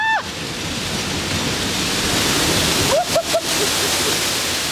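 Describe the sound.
Water pours down at a water park in a loud, steady rushing roar that fills the whole clip, with a couple of brief high voice cries cutting in near the start and again around the middle.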